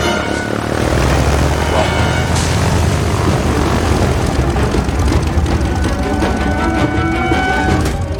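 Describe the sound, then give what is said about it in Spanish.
A propeller airplane engine drones loudly and steadily throughout, a dense continuous roar with a low throbbing hum and no clear change in pitch. “¿Un avión?”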